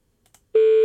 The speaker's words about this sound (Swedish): Ska jag slå in numret bara?